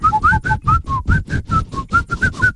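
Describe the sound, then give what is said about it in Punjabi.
Whistle blowing in quick, repeated two-note bursts: many short, high tones alternate over a steady thumping beat, with no voices. “ਸੀਟੀਆਂ ਬਜਾਏ ਕਰੋ, ਤੋਂ ਤੋਂ ਸੀਟੀਆਂ ਬਜਾਏ ਲੱਕੇ ਰੋ”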